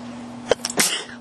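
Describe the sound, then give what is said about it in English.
A single human sneeze, a quick sharp catch followed by a breathy, hissing burst that trails off, stands alone over a faint steady hum. “That was kind of a sneeze. I might need to do it again. Okay, that was a really nasty one.”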